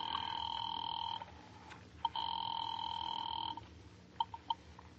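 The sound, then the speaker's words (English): A telephone ringing on a call to a police department: two long, steady electric rings separated by a short pause, followed by a few faint clicks. “Ringing the police department.”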